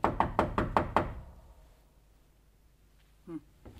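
Knocking on a door: five quick, evenly spaced raps, then near silence with one faint brief sound near the end.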